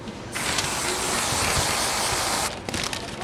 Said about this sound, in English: It's like we'll shoot a little bit of whipped cream in there.